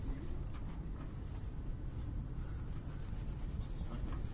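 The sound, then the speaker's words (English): Soft scratching and rubbing strokes of someone drawing a diagram, faint and continuous with short irregular pauses and no talk. “Okay, what I'm drawing here... This should be somewhere in the middle of your page, of your diagram, all right?”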